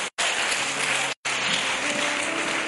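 Audience applause: dense, continuous clapping, loud and steady throughout, briefly cut to silence twice.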